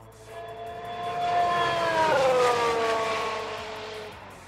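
A race car drives past with a high, harmonic engine whine that swells in loudness, drops sharply in pitch as it passes midway, then fades out.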